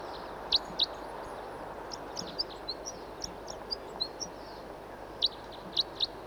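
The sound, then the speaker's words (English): A wild bird calls in short, sharp, high chirps: two louder ones at the start, a run of fainter chirps in the middle, then three louder ones near the end, over a low steady background hiss. “Here's another bird who's also singing and calling.”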